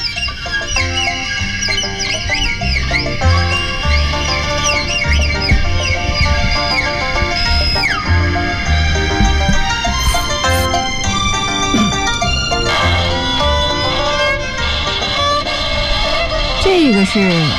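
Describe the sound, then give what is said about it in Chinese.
A leiqin, a bowed Chinese string instrument, imitates a hen clucking before laying an egg, with squeaky, sliding bowed notes played loud and continuously throughout. “这个是 母鸡要下蛋的，是吗？”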